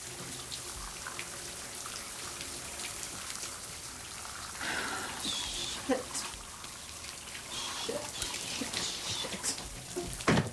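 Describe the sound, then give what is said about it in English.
Water sprays from a shower running in a bathroom. It is a steady, fairly quiet hiss with occasional splashes and patters breaking through. “In the bathroom, Lee stands in the shower.”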